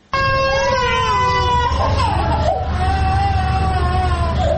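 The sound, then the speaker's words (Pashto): Sick infants and young children crying in a provincial hospital ward in Tarinkot, where they are being treated for diarrhoeal illness. A loud, continuous high-pitched wail with wavering pitch carries through the whole clip. “دا راپور په روغتون کې د بستر ماشومانو په ژړا پیلېږي”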